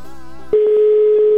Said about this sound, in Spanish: Ya lo estoy marcando, ¿eh?